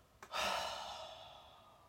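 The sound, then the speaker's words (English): A long, loose exhale out through the mouth during a guided breathing exercise: one soft breath that starts abruptly, swells, then slowly trails away. “And then breathe out big, long and loose out through your mouth.”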